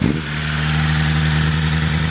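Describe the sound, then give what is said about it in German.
A four-cylinder sports car engine of about 215 horsepower revs loudly as the driver presses the gas. It holds a steady, heavy drone with little change in pitch for the whole two seconds, with no talk. “Darf ich mal Gas geben? Selbstverständlich.”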